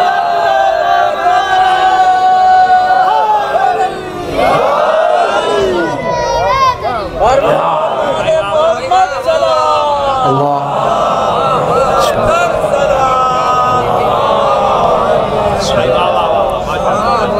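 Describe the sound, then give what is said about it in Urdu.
Crowd at a religious gathering chanting salawat loudly in unison: massed voices blend into a sustained, swelling chorus that rises and falls in pitch together and continues throughout. “ایسے نہیں، اتفاق کے ساتھ ایک بلند آواز سے صلوات بھیجیے”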